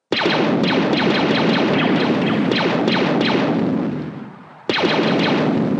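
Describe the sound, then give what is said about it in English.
A spaceship laser cannon sound effect: a loud, rapid volley of many harsh, booming blasts that fades away, then a fresh burst of the same firing starts abruptly. “Next, we have the Slave One laser.”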